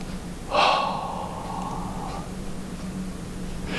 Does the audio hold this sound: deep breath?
yes